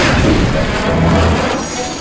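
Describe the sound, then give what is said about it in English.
Dragonfire blasts at a sword as an audio drama effect, a loud, rumbling roar with a heavy boom-like body that stays strong for about two seconds. “Rex, destroy the sword! Rex is going to destroy Logos with Dragonfire!”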